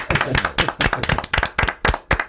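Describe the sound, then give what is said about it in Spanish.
Applause from an audience for a contestant after a good answer: loud, sharp, distinct hand claps in a quick, slightly uneven rhythm, with short gaps between bursts. “Yo pido otra ovación para Adrián Gutiérrez.”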